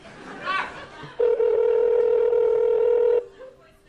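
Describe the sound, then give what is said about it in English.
A ringback tone plays during an outgoing phone call: one loud, steady, droning ring lasting about two seconds, with voices briefly before it. “We'll leave a voicemail if she doesn't pick up.”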